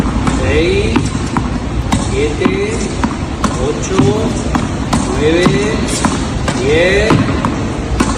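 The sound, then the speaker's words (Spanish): Tennis ball struck with the right hand during a training session, a long, steady series of sharp, crisp impacts repeating at a regular pace over a constant, dense background noise. “Carlos Alcaraz ha vuelto a entrenar y a golpear por fin la pelota, la bola, con la mano derecha. Y suena así.”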